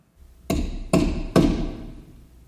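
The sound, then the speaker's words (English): Three ringing hammer blows drive nails, evenly spaced about half a second apart. Each is a sharp, loud strike with a lingering metallic decay, heard on its own. “with every pound of the hammer, God was nailing down redemption for them”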